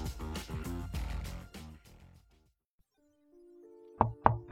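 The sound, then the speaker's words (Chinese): Knocks on a hospital room door: a few sharp, fairly loud raps come near the end, after music fades into near silence and a low, steady tone. “敲了敲门”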